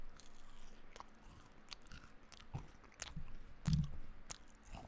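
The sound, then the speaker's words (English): Close-mic eating of watermelon, yogurt and nuts: sparse crisp bites and crunches among soft wet chewing, with one louder crunch late in the sequence and no talk. “I got a nice bowl of fruit. I got some watermelon, and I got some yogurt, and some nuts. Let's do some ASMR.”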